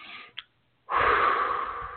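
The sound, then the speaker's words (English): A deep breath during a guided back-relaxation session: a brief faint breath sound, a short silence, then a long, airy, steady rush of breath that runs on for over a second, with no talking. “Now take a deep breath.”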